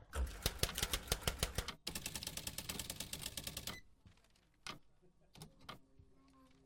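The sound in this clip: A ticket machine clatters as it prints a ticket after a button press: two dense bursts of rapid mechanical clicking, then a few scattered, fainter clicks.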